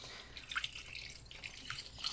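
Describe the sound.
Liquid film-developing chemicals trickle into a tall stainless steel developing tank with a plastic top, a faint, steady watery pour with a few brief drip-like splashes.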